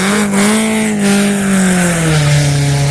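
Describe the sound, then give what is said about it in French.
Engine of a Honda S2000 race car at the start of a run, a loud, steady mechanical drone whose pitch slowly sinks over the few seconds, heard alone. “maintenant nous sommes sur la 207, véhicule numéro 207, on est sur une Honda S2000”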